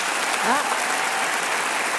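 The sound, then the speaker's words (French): An audience of several hundred people applauds to vote against a proposal at a public gathering. The clapping forms a dense, steady wash of sound that holds at an even level throughout. “Par applaudissement, qui est pour ? Quelques-uns. Par applaudissement, qui est contre ?”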